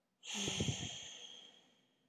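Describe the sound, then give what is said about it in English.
One strong, forceful exhale through the nose comes after silence as a breathy, airy rush with a slight snorting edge, then fades gradually over about two seconds, heard alone. “And we're going to take a nice easy breath in through our nose. Hold. And nice and powerful out through your nose.”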